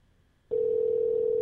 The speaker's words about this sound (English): We have to leave a voicemail if she doesn't pick up.